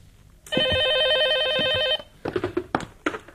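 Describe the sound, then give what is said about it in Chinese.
A telephone bell rings in one long, steady, shrill trill lasting about a second and a half. It stops abruptly and is followed by a few sharp clicks and knocks. “电话铃声响了起来。”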